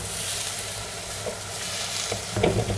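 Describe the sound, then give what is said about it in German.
Risotto is stirred in a pan, giving a steady low sizzle with soft scraping strokes that grow a little busier toward the end. No one speaks. “Risotto wie immer umrühren.”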